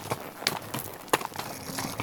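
Hooves of a horse being ridden outdoors in forest and mountain country thud softly and irregularly, a few muffled beats over a steady background rustle.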